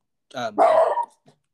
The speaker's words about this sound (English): Sorry, that was my dog.